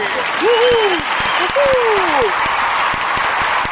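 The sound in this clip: Applause from a live audience welcoming a guest onto the stage: dense, steady clapping that fills the whole stretch, with a voice briefly rising above it.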